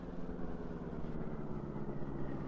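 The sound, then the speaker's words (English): A car engine runs steadily as the vehicle drives up into an alley with its headlights switched off, giving a continuous, even low hum throughout with no other sounds. “Turn off the lights and drive up into that alley.”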